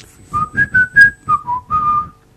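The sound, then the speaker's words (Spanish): Whistled tune that tango musicians use as an insult when everything goes wrong during a soundcheck: a quick phrase of clear, bright notes stepping up and then down, ending on a longer held note, whistled alone. “le va a enseñar algo de un silbido que hacen cuando está todo mal mientras prueban sonido”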